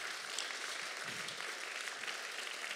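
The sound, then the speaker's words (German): Applause from the audience at a Christian worship gathering as a woman is urged to stand again, a steady, dense clapping that holds at an even level throughout with no voices over it. “Und sie sagte schon, ja komm, steh noch mal auf, die Leute applaudieren dir.”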